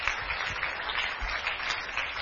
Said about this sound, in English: Keep clapping as they come out.